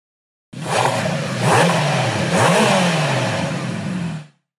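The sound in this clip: A Ferrari F8 Tributo engine revving through a stock or aftermarket exhaust: a loud, sustained roar of about three and a half seconds that surges up and down in pitch a couple of times before cutting off abruptly.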